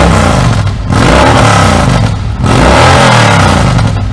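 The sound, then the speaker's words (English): A Harley motorcycle engine revs through a 2-into-1 exhaust, giving loud, rough, throaty blasts in a few surges broken by brief dips as the throttle eases and reopens. “You're gonna definitely hear that on this bike. The 2-in-1, you can hear it changes the tone a little bit, but what most people are gonna notice is that decibel level.”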